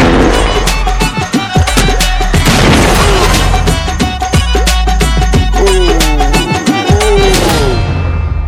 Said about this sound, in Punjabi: ਹੁਣ ਪਟਾਕਾ ਪਾਓ।